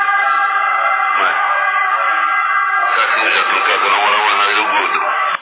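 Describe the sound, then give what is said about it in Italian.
An ambulance siren wails steadily, a thin, band-limited warbling tone that switches to a faster, busier pattern partway through before cutting off abruptly at the end. “Ha sentito l'ambulanza già. Ogni 5 minuti.”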